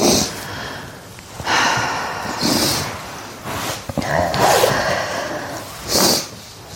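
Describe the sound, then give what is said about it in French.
Deep breaths drawn in and pushed out during a guided relaxation exercise, heard as several slow, airy breathy bursts separated by short quiet gaps. “Je t'invite à juste prendre quelques respirations.”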